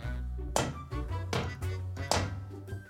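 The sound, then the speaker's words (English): Tapping from downstairs in a locked dungeon: several heavy, dull knocks at irregular intervals over a low steady tone. “I didn't hear that tapping before. It's coming from downstairs.”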